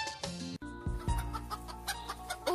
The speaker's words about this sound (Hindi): दाई, कुखुरा त निकै चाँडो हुर्काउनु भएछ।